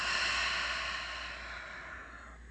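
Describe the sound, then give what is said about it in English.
A slow breath through the nose, heard as a steady, soft, airy rush of breathing that gradually fades as the air is let go, with no voices. “Taking breaths in through the nose and letting it go.”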